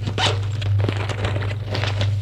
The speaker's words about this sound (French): Prend le chapeau, le met, le sac à main rouge, l'ouvre.